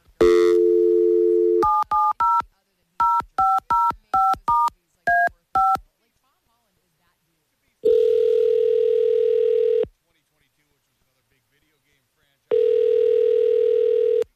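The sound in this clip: Dialing a telephone number: a steady dial tone, then a quick string of beeping keypad tones at varied pitches, followed after a pause by two long, even ringing tones separated by silence.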